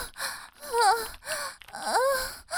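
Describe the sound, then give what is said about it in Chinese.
Gasping of someone struggling for breath, a few faint, strained voiced moans that bend in pitch, separated by short breathy pauses in an uneven rhythm. “可怜的气都喘不上来了呢，脸都涨红了，”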